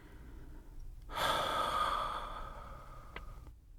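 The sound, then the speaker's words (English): A single slow breath during a guided belly-breathing exercise, drawn in through the nose and released through the mouth: a soft, airy rush that swells and fades, with faint background before and after. “Inhale through your nose and draw the breath all the way down, letting your belly expand. Exhale through your mouth, releasing the breath fully.”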